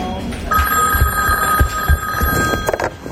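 A telephone at a post office rings in one continuous, steady electronic trill for a couple of seconds, over a background of low, irregular thumps and bumps.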